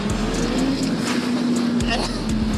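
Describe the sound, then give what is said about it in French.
A motorcycle engine pulls hard in third gear at about 4000 rpm as its rear tyre spins. The exhaust gives a loud, steady buzzing drone that holds a nearly level pitch throughout. “Elle a patiné un tout petit peu de l'arrière, ça pue le pneu cramé, c'est trop bon. Et je suis en troisième à 4000 tours minute, j'ouvre mi-poignée et commence à patiner.”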